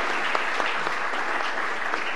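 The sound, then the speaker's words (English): Audience applause welcoming a couple onto the stage during a talk about discipleship: a crowd claps in a steady, dense patter at an even loudness, with no voices over it. “Can we just give them a big clap just to welcome up?”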